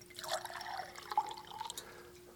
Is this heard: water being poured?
yes